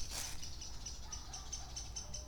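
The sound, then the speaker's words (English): Excited chattering birds overhead give many short, faint, high chirps in an uneven rhythm over soft background noise. “There are some excited birds somewhere above me. What are they excited about? Chirp, chirp, chirp.”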